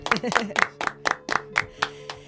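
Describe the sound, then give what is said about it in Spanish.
Applause breaks out in a radio studio to welcome a guitarist and composer: a steady, evenly spaced run of sharp handclaps, about four per second, holding a moderate level for just over two seconds. “para quien pido un caluroso aplauso”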